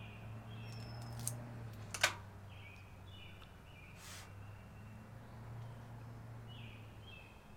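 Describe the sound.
A cigar cutter snips the tip off a Robusto cigar, 5x50 in size, before the draw is tested: a light click followed by a sharper, louder snap over a faint, steady low hum, with no talking.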